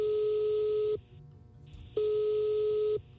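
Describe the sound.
Ringback tone of a telephone after dialing a call: two even, steady tones of about a second each, separated by a one-second gap, over a faint low background.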